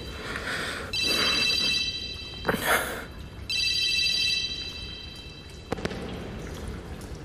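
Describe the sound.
An office telephone rings in repeated long electronic trills with pauses between them, over a steady background hiss. No one speaks.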